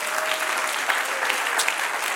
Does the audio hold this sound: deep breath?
no